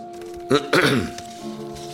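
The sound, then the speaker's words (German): A throat being cleared: a brief catch followed by a longer, rasping burst, heard over a steady low background hum. “Es fing an mit einem Räuspern.”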